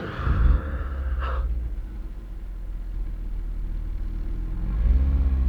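A car drives off with a low, steady engine rumble, a brief rev at the start and the engine swelling louder again near the end; no one speaks.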